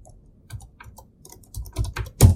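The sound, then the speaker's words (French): Typing on a computer keyboard to enter a search term: a few faint, scattered key taps, then a denser run of clicks ending in one louder stroke. “Je vais taper « L'étranger » ici.”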